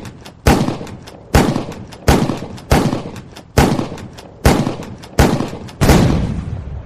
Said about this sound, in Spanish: Disparó 98 veces.